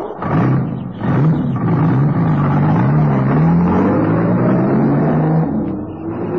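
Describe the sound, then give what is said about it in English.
A car drives off with a steady, loud engine drone that runs without a break, its pitch creeping gradually upward as it accelerates. “No, you don't. You drive off now to New Hartford.”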